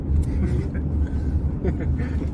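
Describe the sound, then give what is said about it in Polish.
Low engine rumble of an airport duty car driving onto the runway, a steady deep drone of road noise, with a voice faintly heard over it. “Idziemy samochodem dyżurnym. I zobaczcie, wjeżdżamy na pas.”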